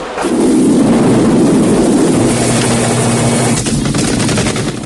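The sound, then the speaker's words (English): A helicopter from the film Rambo, circling a prison camp during a firefight, makes a loud, steady, throbbing roar that holds at the same level for the whole clip. “Russians and Viet soldiers return fire from the ground as Rambo circles the camp in the chopper.”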